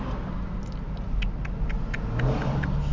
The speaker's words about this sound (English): Sorry, that was a lawnmower.